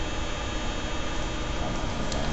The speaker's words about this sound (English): if you can hear it above the loud drone of the fan of the computer